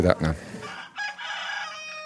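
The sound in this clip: Chickens calling on a small farm that also keeps ducks, geese, turkeys and sheep: a few short clucking bursts, then one drawn-out, crow-like call that carries to the end.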